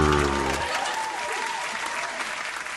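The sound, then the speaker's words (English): People clap in dense, steady applause that fills the whole stretch, with a brief voice audible at the very start. “You coming in the door and then a bunch of beer cans and bottles moving around and everyone clapping.”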